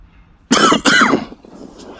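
Two loud, harsh coughs burst out close together, each rough and throaty, then give way to faint low noise.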